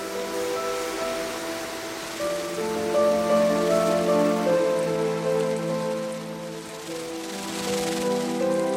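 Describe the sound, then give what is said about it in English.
Heavy rain pouring down in a steady, dense hiss, with sustained tonal notes running over it throughout. “It pours with rain.”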